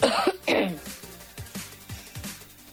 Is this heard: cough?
yes